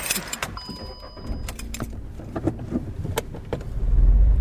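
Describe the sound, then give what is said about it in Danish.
Car heading west: clicks and rattles over a low road rumble, with a few short tonal notes early on and the engine rumble swelling louder near the end. “Så kører vi mod vest.”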